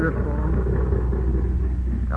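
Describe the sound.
A motor runs with a steady low rumble throughout, and a voice talks over the drone.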